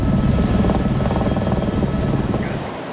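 A firefighting helicopter working on a wildfire near Kemer in Antalya gives a loud, continuous rotor drone with rapid pulsing chop. The sound stays steady and eases slightly toward the end.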